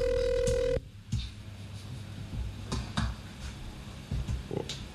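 A telephone ringing for an incoming call to a studio: one brief, bright ring lasting under a second that cuts off abruptly, leaving low background noise with a few faint clicks.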